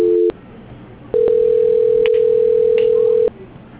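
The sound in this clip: Telephone transfer tone on a bank call: a brief two-note tone at the start, then a short gap, then one long, steady mid-pitched beep of about two seconds over faint line hiss.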